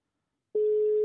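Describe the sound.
A telephone ringing tone sounds on an unanswered call, a single steady mid-pitched tone that starts abruptly after silence and holds unchanged to the end.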